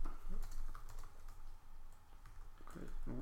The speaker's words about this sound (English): I'm writing Christmas tree with no decorations. Hope you can hear the tapping in the podcast of me on the keyboard.